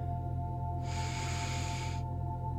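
A single long exhale blown out during a self-massage exercise: a steady, breathy rush of air lasting just over a second, rising out of and fading back into a low, constant background hum.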